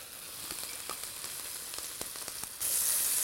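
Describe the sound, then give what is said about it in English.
Sausages sizzle and crackle in a hot pan with a little oil, browning as they fry. The hiss is quiet and dotted with sharp pops, then jumps to a louder, steady sizzle near the end. “I'm going to add just a tiny bit more oil and I'm going to start browning off my sausages.”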